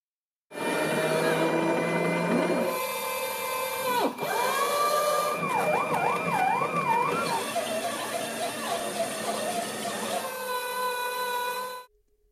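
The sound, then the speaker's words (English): Whirring motor drone of an automatic chapati-making machine that mixes, kneads, flattens and cooks dough. A steady mechanical hum with shifting, warbling tones, a brief break partway through, then an abrupt stop. “that's the Rotimatic, an automatic chapati making machine. It mashes the ingredients, mixes, kneads, flattens, cooks, puffs, and prints out a finished chapati in about a minute.”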